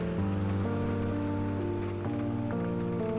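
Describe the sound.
Rain falls steadily in the dark as an even wash of hiss, running unbroken under sustained, low musical tones that shift pitch a few times.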